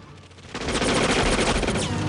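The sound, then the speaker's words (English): Gunfire erupts after a half-second lull: dense, loud, continuous bursts of rapid shots from several guns, fired by men ambushing from under snow, rattling on without pause to the end. “Men in white suits spring up from under the snow, firing their guns.”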